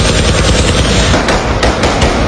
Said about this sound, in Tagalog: May mga pwersa ng gobyerno at mga tangke na nagpapaputok sa mga armadong grupo na nasa sakahan at mga puno.